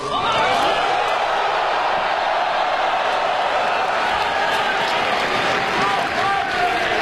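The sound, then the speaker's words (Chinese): An arena crowd in Beijing roars and cheers at a basketball player's farewell at the end of his career. The dense, loud cheering stays sustained and steady for the whole stretch. “I'm so happy to end this here so you can give me your last cheer.”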